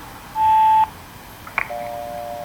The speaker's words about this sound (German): Wir haben aber nach dem Signalton die Möglichkeit, Ihren Namen und eine Nachricht zu hinterlassen.